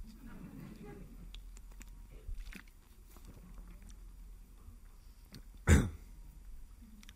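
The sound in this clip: A speaker with a throat problem clears the throat once in a sharp, loud, brief burst that stands out above a faint, steady background.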